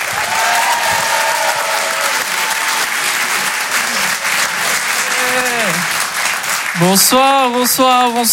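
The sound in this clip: A comedy club audience breaks into loud applause for a comedian being introduced, dense steady clapping with a few cheering voices rising above it near the end.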